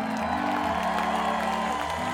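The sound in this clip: Concert audience cheering and applauding for a band, a steady wash of cheers and claps that holds at moderate level for the whole moment.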